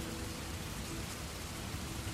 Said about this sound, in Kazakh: бүгін міне тағы жаңбыр, тағы да мұң.